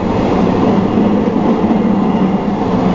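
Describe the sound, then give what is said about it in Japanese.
A train pulling into Shibuya station gives a loud, steady rumble. The broad roar of the rail car continues without a pause, and no voices are heard. “まもなく渋谷に到着いたします。”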